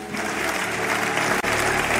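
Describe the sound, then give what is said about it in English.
A church audience claps for their pastor in an even, dense round of applause, with a faint low hum beneath and a brief dip partway through. “But shall we clap for our man of God, Apostle Grace?”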